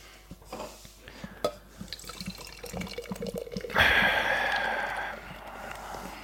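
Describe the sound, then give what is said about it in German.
Beer is poured from a can. A few faint clicks and handling taps come first, then a sudden fizzing, gurgling pour that holds for about a second and slowly fades. “während ich hier dieses Bier aus der Dose lasse.”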